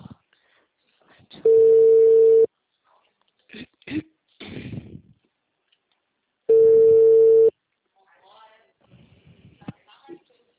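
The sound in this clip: Two long, steady electronic telephone tones, each about a second, follow a dropped call and are separated by a pause filled with softer scattered noises.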